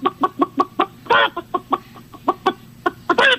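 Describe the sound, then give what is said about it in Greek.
Chicken clucking in a quick, uneven series of short, sharp clucks, broken by a couple of longer, harsher squawks, loud and alone. “Βρε καημένε, ένα διαφορετικό κακάρισμα δεν μπορούσε να κάνεις ότι έχει πολύ κόσμο.”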